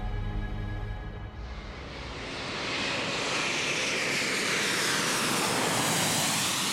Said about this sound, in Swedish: December 2020. Ett plan landar på Arlanda, Stockholm.